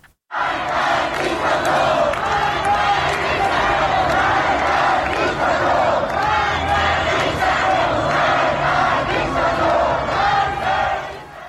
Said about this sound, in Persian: یه صدا، یک ویدیوی دیگر میتونیم بشنویم از شهرک آزادی تهران که اونجا هم جمعیت زیادی در حال حرکت دیده میشن در این ویدیو.